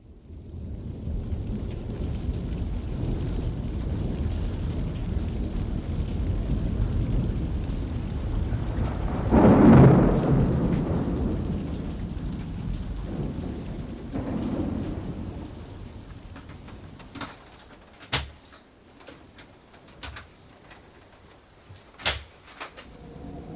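A thunderstorm around a lonely house, with steady rain hissing throughout and a deep thunder rumble swelling in the middle. As the rain thins, a few sharp knocks follow.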